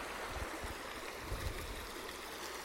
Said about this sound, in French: Là, je peux enregistrer le bruit de l'eau.